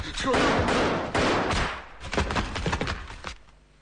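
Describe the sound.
Gunfire in a tense interrogation scene: a loud, broad blast opens, and later several sharp cracks and thuds follow in quick succession.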